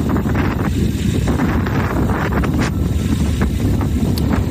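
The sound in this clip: Strong wind gusts during a cold storm in Madrid batter the microphone in a loud, continuous roar and buffeting, with no voices.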